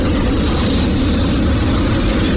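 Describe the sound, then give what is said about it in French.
A gas flamethrower roars in one loud, continuous blast from a nearly empty gas canister. The rushing noise holds steady for the whole burst without a break. “un coup de lance-flamme”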